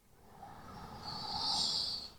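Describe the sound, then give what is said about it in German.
A deep breath is drawn in slowly during a guided breathing exercise: one long, soft, airy swell that builds steadily, peaks, then tapers away, quiet and without talk. “Und jetzt mit diesem Öl einmal für 2 tiefe Atemzüge einatmen.”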